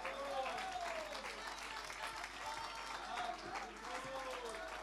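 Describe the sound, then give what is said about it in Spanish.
Applause of praise during a church worship celebration service: an audience's steady, dense clapping, fairly quiet and continuous throughout, with a voice heard over it. “Fuerte, fuerte, fuerte, fuerte ese aplauso de alabanza al Señor.”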